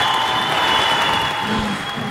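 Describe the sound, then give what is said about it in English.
Live studio audience applauding a guest's welcome on a talk show: a steady, dense wash of clapping that runs the whole time at an even level, with a faint steady hum beneath it. “That's our live audience. That's our live audience. Yeah, they just love you up here.”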